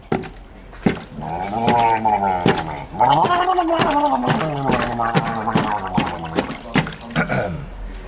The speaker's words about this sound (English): Man plunging face in bucket of water. It does get wet.